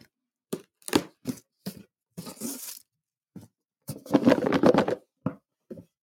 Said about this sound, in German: Damit wir Vollgas geben können, habe ich wieder ein kleines Geschenk für uns. Bist du bereit, dass ich das auspacken darf?